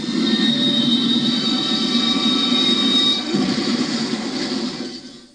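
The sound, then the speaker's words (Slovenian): A train rumbles and screeches during a derailment: a loud, steady roll with high squealing tones that shifts slightly after about three seconds and fades toward the end. “Joj, Nesreča, vlak je iztiril.”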